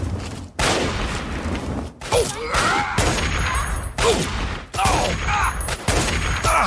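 Video game gunfire rings out as a series of sharp, loud shots spaced roughly a second apart, each a booming burst with a short tail, and no voices between them.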